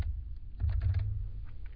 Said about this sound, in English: this is going to be our original, so let's just type that in. This is our original document.